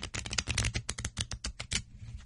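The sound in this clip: Playing cards shuffled for a game of old maid: a rapid run of many crisp, papery flutters and snaps that stops just before the end.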